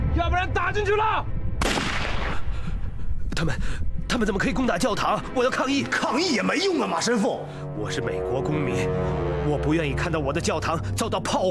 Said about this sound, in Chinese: 同志们，准备开枪，走！